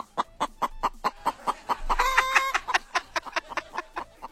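Chickens cluck in a henhouse, giving many short, evenly spaced clucks at a steady rhythm. A longer, drawn-out harmonic call rises over them in the middle, and then the clucking carries on alone.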